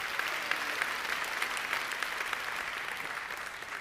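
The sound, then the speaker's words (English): A church audience applauds during a service: dense, continuous hand clapping that stays at an even level throughout, fairly faint. “Come on, you got to rejoice in the Lord. Come on, real loud. Más fuerte aplauso.”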